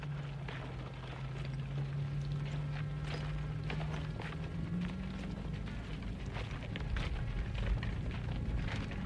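Hooves clip-clop as a horse-drawn cart rolls behind a wartime field kitchen, with many irregular clicks and knocks over a steady low rumbling hum that continues throughout at a fairly even, moderate level.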